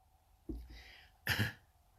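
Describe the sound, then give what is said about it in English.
A couple of short, faint coughs, one brief burst followed by a stronger, breathier one, with quiet pauses around them. “COVID cough, but I'm not next to you, so don't worry.”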